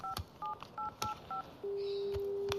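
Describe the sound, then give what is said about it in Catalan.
Telephone keypad tones as a number is dialed: five short dual-pitched beeps in quick succession, then a steady, continuous line tone. “Va, truca'l.”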